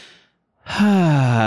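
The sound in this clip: A voice imitates a relieved exhale after finally beating a video game boss. A brief, quiet breath comes first, then a pause and a loud, voiced sigh whose pitch falls steadily as it trails on.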